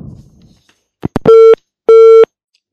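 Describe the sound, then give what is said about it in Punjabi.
Phone line tone after a dropped call: a couple of short clicks, then two sustained, steady electronic beeps of equal pitch with a clear gap between them, loud and alone with no talk. “So phone ਕੱਟ ਹੋ ਗਿਆ।”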